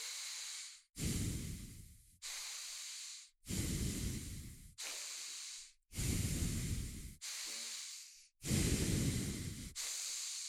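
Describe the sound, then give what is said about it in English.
Sharp, forceful breaths drawn in through the nose during a guided breathing exercise: a steady series of loud, hissing, airy bursts separated by brief gaps, some carrying a heavier low rumble, with no talking. “we'll just take 5 big sharp breaths to lock our body into this space through the nose, just like this.”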